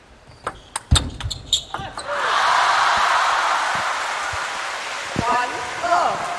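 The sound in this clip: A table tennis ball bounces a few times in sharp, quick taps as Wang Manyu prepares to serve in a Grand Smash women's singles final, followed by a swell of crowd noise with talk over it.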